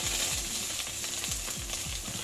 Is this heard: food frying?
yes